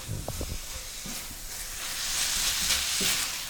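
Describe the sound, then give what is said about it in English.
Brussels sprouts sizzle in a pan as mustard dressing is added and tossed. A steady, bright hiss swells slightly toward the end, with a few soft low knocks from stirring near the start. “I'm going to add my dressing, that mustard dressing. I'm going to toss that around.”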